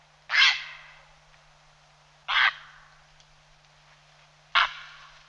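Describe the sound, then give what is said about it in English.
A heron gives three harsh, sharp bark calls as it departs. Each is a short rasping burst with a brief trailing tail, evenly spaced with quiet between. “Herons are flighty birds, often giving a sharp bark as they depart.”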